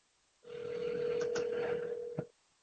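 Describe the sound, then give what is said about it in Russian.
Telephone tone on a call to a studio number: one steady, mid-pitched beep held for about two seconds, ending with a faint click, with no voices. “показываю свой телефон. Я набрал номер телефона студии. И никакой реакции на нашем устройстве связи с общественностью.”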